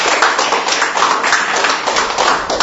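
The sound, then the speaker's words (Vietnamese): An audience claps during a Catholic homily in honour of Saints Cornelius and Cyprian, a loud, dense patter of hands that holds steady for the whole short stretch. “Một tràng pháo tay thật lớn thưa anh chị em.”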